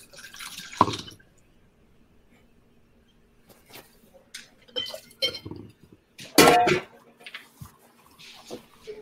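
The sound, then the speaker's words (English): Liquid poured into cocktail mixing cups, an ounce each of reposado tequila and other ingredients: a couple of brief, quiet splashes and clinks separated by near-silence. “So we're going to add an ounce of each of those into the mixing cups. Into the mixing cups, yeah.”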